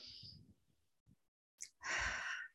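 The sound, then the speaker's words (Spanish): Deep breathing during a relaxation exercise: a soft, faint breath sound, then a fuller, airy breath lasting about half a second, quiet throughout. “Vamos a hacer unas cuantas respiraciones profundas.”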